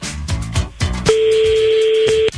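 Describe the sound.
Telephone ringback on a call: after a brief stretch of other sound, one steady, pure-pitched ring tone sounds clearly for about a second and then stops.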